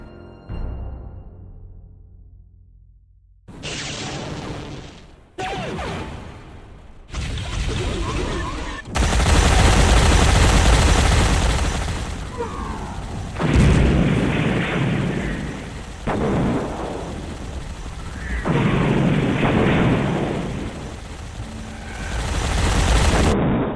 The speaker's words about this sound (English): All guns! Fire at will! I repeat, fire at will!